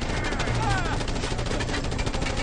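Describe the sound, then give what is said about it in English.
Video game gunfire during a helicopter hijacking: rapid, dense bursts of shots layered into a continuous rough roar of action noise. “Here is where we hide, carjack a chopper. Shoot him.”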